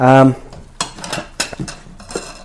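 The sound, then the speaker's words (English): A spoon clinks and scrapes against a bowl while mixing crushed garlic with other ingredients. A short voice comes first, followed by several uneven taps and scrapes. “a little bit of crushed garlic, and mix all that together.”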